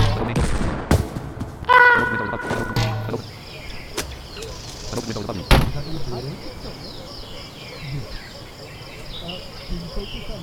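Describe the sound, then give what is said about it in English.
Video game gunfire: a few sharp, separate shots spaced over several seconds against a dense, chirping, insect-like background. “We can hear you firing a supposed gun. Stop firing at me!”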